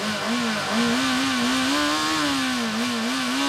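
An engine revving with a steady, buzzing drone whose pitch wavers slightly up and down throughout. It is fairly loud and heard alone.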